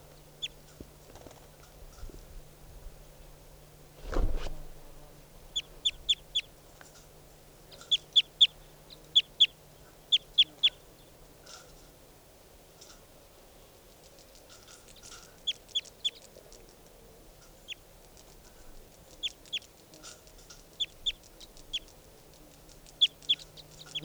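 Bird calls: many short, high-pitched chirps come in scattered clusters over a faint low hum, with one dull thud early on.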